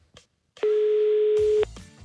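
A telephone tone after a number is dialed sounds as one sustained, steady mid-pitched beep lasting about a second, followed by a brief low click and line noise.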